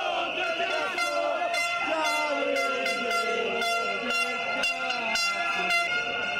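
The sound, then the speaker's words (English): Blaring car horns from a taxi drivers' street protest in a city centre: many overlapping, sustained honks sound continuously, with crowd noise beneath. “Well, that's the sound of one of those city centre demonstrations that so aroused the wrath of my taxi driver. But in this case, the sound and fury is caused by taxi drivers themselves.”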